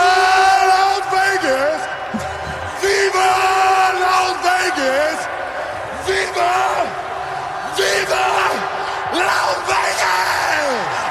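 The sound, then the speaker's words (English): A man screams wildly after his football team wins, with loud, hoarse bellows and whoops that slide up and down in pitch. The yelling is continuous, with crowd noise behind it. “I saw this clip of Travis Kelce screaming when they won because the Chiefs won the football game.”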